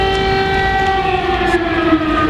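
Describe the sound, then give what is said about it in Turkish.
Air raid sirens sound in Kyiv, a loud sustained wail held at a nearly steady pitch throughout, with no voices. “Merz ve Zelenski'nin bir araya geldiği anlarda sirenlerin çalması dikkat çekti.”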